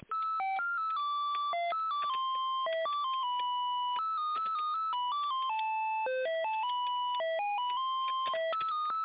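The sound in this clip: Electronic telephone tones play while an office call is transferred to another department: a continuous run of many short beeping tones that step between pitches like a simple tune. No one speaks.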